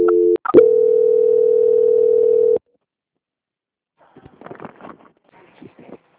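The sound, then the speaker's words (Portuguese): A telephone call-transfer tone: a couple of short beeps, then a steady, loud continuous tone lasting about two seconds that cuts off abruptly, followed by silence. “eu vou transferir o contato para o controle de qualidade que vai dar andamento à sua contratação, tá ok? Ok. Transferência.”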